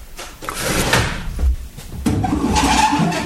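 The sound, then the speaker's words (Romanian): Window shutters being opened give a rough scraping and rattling, with a heavier thud midway and a second burst of clattering friction that follows, moderately loud and without talk. “Deschide puțin obloanele.”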